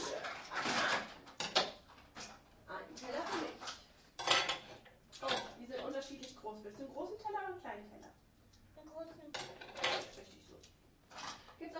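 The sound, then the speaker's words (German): Plates and cutlery clink as a table is set, with a series of light clatters and knocks scattered between voices talking throughout. “Soll ich schon mal den Tisch decken? Ja, darfst du. Okay. Ein Teller.”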